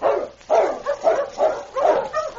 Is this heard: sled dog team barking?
yes